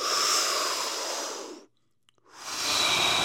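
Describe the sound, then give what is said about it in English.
A deep breath taken during a hypnosis session: two long, loud, airy breath sounds with a brief near-silent pause between them. “I want you to take another deep breath with that 1,000 confidence.”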